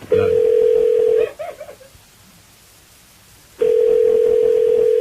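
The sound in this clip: A telephone call being dialed out: a steady, loud single-pitched line tone lasting about a second, a couple of brief beeps, a quiet gap, then the same steady tone returning and holding to the end.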